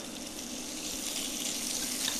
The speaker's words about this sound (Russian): Так, все, начинаем это обжаривать. Лук в первую